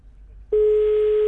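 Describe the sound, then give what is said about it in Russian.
A telephone ringing tone on an outgoing call about a job advertisement for a security guard. A single steady, continuous beep starts abruptly after a moment of faint background noise and holds unbroken to the end. “Так, вот у нас звонок идет.”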